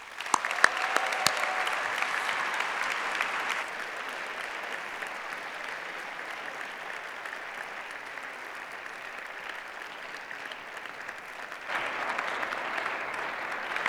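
Audience applause welcomes a judge to the stage at a morning gathering: dense, steady clapping that is loud for the first few seconds, eases to a softer, sustained patter through the middle, then swells again near the end.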